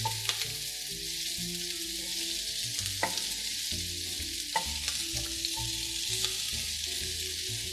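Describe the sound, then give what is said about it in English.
Onions frying in olive oil until tender and translucent, a steady bright sizzle throughout, with a few short clicks of stirring and low tonal sounds underneath. “So here, we're bringing these onions to become tender, and they'll be the base of our baking dish. Slowly seeing each little piece become translucent.”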